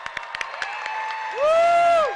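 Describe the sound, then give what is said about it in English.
Audience applause and cheering break out: scattered sharp claps come first, then a loud piercing whistle swoops up and back down over the crowd noise. “Please give them a round of applause.”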